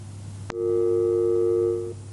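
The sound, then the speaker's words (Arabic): A sharp click, then one steady electronic telephone tone after a call is cut off. The tone holds for about a second and a half before stopping, over a low hum, with no voices. “للأسف انقطع الاتصال، ناخذ اتصال آخر.”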